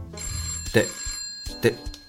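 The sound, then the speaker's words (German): A telephone bell rings in two short bursts, the second close after the first, with a faint steady tone underneath. “Stopp mal kurz. Was ist das jetzt? Wo kommt das? Das Telefon.”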